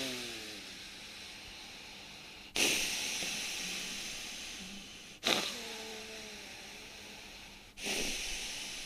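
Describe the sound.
Forceful breaths in and out through the nose during a yoga breathing exercise: a loud, steady hissing airflow, broken by three sharp surges that each fade gradually, with no talking.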